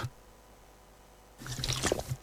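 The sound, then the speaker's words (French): A quick sip of water after a near-silent pause, a brief cluster of faint slurping and swallowing sounds lasting under a second. “Excusez-moi, j'étais obligé de boire un petit coup d'eau parce que j'avais avalé un truc de travers.”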